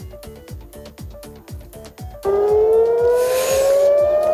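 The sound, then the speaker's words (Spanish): Air raid siren sounding in Israel during a missile attack: a loud wail enters midway and rises steadily in pitch over a regular rhythmic pulse that runs throughout. “Este es el sonido de las sirenas.”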